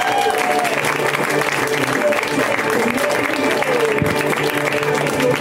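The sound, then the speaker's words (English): Audience applause fills the whole stretch as dense, continuous clapping at an even, fairly loud level, with a faint voice briefly audible through it. “A round of applause, everyone”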